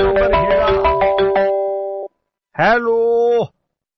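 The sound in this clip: Electronic telephone ringing for a listener's call-in to a Punjabi radio request programme, a rapid pulsing ring over steady bright tones, then a brief pause and a second sustained tone.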